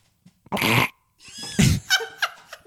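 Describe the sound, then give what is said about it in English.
A wet fart noise: one loud, buzzy, sputtering burst, followed by a few shorter, spluttering wet bursts that trail off. “That was a wet fart.”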